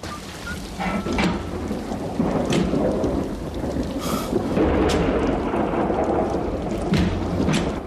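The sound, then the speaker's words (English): A thunder and lightning storm sound effect for a storm striking a schooner: steady, loud rain hiss under low, rolling rumbles of thunder and several sharper crackling bursts, continuous throughout. “Lightning rips through the schooner's rigging. The lightning brings down a mast which crashes through the deck and lands in front of the metal door.”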